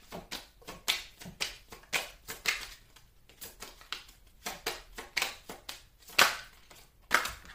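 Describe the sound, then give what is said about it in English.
Cards are handled and drawn from a deck for a Pisces reading. Many quick, faint snaps and taps come in an uneven rhythm, some louder than others, with no talk over them. “I'm going to take another card right quick. May I have another card for Pisces,”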